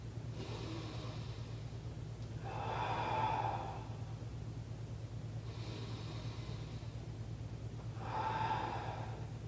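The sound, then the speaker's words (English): Slow, deep breathing during a floor breathing exercise: two long, swelling inhales several seconds apart, soft and airy over a steady low hum, with no talking. “every deep breath in, you want to push into the ground. So it's going to look like this.”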